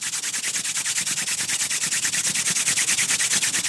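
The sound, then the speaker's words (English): Hands rubbing together in a prayer position to build heat. Rapid, steady swishing strokes repeat many times, loud and continuous with no talk. “now I want you to put your hands together in prayer and just start rubbing them together and creating some heat.”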